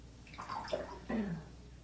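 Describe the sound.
Faint water splashing and sloshing as a child plays in a bathtub, in soft irregular bursts, with brief quiet voice sounds over the water.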